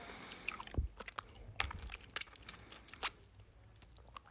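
Quiet, irregular crunching and wet mouth clicks of someone chewing a hard sweet, with soft smacks scattered through the quiet and no talk.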